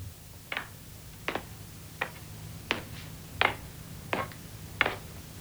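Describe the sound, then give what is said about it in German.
A clock ticks steadily: seven evenly spaced, crisp clicks, roughly one every 0.7 seconds, over a low steady hum, with no voices. “Tick, tock, tick, tock.”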